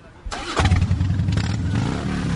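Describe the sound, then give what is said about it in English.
A motorcycle engine revving as a motorcycle group begins a parade. It starts with a sharp onset, then settles into a loud, throaty low rumble with pulsing revs that carries on to the end. “we want to get some Dykes on bikes sound. Someone want to rev it for us?”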